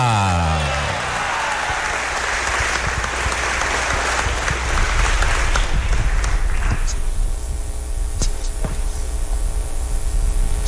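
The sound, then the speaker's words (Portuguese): Sustained applause for a school at a crowning ceremony in an assembly, a dense, even clatter of many clapping hands that holds loud throughout. “Então vamos dar uma salva de palmas à escola agora, agradecendo, né, a nossa escola por essa coroação.”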